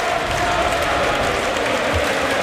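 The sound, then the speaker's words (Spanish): Football stadium crowd applauding a player as he is substituted off: a broad, steady wash of clapping and crowd noise with no break. “Bueno, se marcha Skelly, aplaude la grada, le aplauden a él y va a entrar Martín Zubimendi.”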